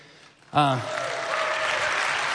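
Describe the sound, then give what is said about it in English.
Congregation applauding for the church's student minister: a dense, steady burst of many hands clapping begins abruptly after a brief voice and carries on loudly and evenly to the end. “Don't clap for him, but you don't have to clap for any of them.”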